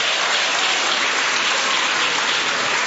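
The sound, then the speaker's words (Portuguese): Congregation clapping hands for Jesus during a church service: dense, steady, rain-like clapping that continues at an even level throughout, with no voices standing out. “Oh glória, pode bater as palmas para Jesus, pode bater as palmas para Jesus.”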